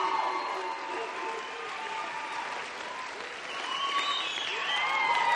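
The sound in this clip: Applause from a church audience standing to welcome a pastor before he preaches: steady, dense clapping mixed with crowd noise that holds at an even level throughout.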